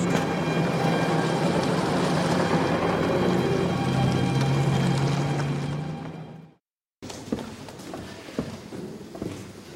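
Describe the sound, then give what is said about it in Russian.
A car drives away, with a broad, steady engine rumble and road noise holding for about six seconds before fading. It then cuts to a quieter, different noisy background. “Садятся в машину, уезжают.”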